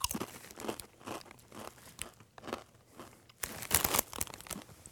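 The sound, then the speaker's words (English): Crunching on Blazin' Buffalo Ranch flavored Doritos tortilla chips: many sharp, crisp crackles in uneven bursts, with louder crunches toward the end and a soft crinkle between bites. “All right, let's try this. Blazin' Buffalo Ranch Doritos.”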